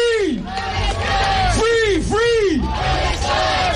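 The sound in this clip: A protest crowd chants loudly in the streets of Vienna near the Eurovision venue. Many voices bellow in unison with rising and falling cries over a dense, continuous roar.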